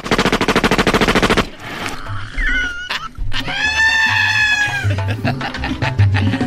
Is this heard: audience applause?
no

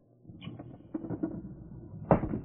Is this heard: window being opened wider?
yes

